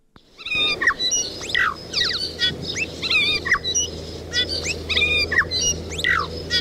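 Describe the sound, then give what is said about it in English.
Bellbird (korimako) song rings out in many clear, bell-like whistled phrases, some notes sliding up or down, over a steady low background hum. “It's a bellbird, also known as the korimako.”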